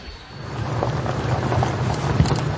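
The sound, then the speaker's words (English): A vehicle rumbles through mountain valleys in Taiz carrying military forces, a steady low drone with a faint hum and an occasional bump, no voices. “We're driving through the valleys of Taiz with the Yemeni forces, heading towards the front line.”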